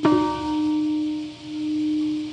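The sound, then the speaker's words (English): A single bell struck at a ceremony marking the anniversary of the Hiroshima atomic bombing rings out with a clear, sustained tone that swells and pulses slowly as it hangs in the air, fairly quiet and alone. “Today, bells mark the anniversary of the nuclear bomb that destroyed Hiroshima”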